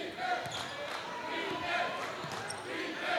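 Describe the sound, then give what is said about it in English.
A basketball is dribbled right-handed during a game. Steady, muffled bounces are partly masked by loud, continuous crowd noise. “will pick him up slowly with that right-handed dribble”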